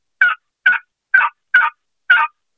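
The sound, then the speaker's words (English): Five evenly spaced slow yelps from a turkey call imitating a wild turkey during fall turkey hunting, each note short, raspy and fairly loud, with silence between them. “I'm going to yelp a little bit, the slow yelp, and it's just kind of sound like this.”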